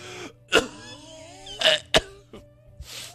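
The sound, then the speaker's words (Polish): A man's coughing fit: a few sharp, fairly loud coughs break out in separate bursts, with raspy, voiced throat sounds in between and fainter hacks trailing off toward the end. “Niestety, no, znów się rozkasłałem.”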